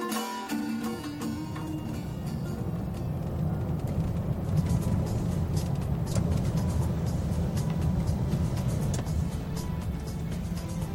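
A car drives on the road southwest of Tehran toward Save in Iran, giving off an unbroken low rumble and tire hiss that stays steady and even throughout with no voices.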